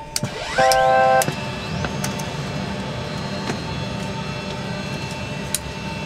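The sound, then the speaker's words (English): An aircraft auxiliary power unit starts up on a plane at a firefighting base. A rising whine climbs quickly and settles into a steady high tone over a constant mechanical roar. “I'll crank up the APU.”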